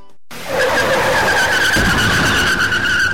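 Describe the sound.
A car skidding, with a tyre bursting: a loud, sustained high-pitched squeal of tyres rises over a rough, noisy rumble, and a dull low thud breaks in partway through while the squeal continues.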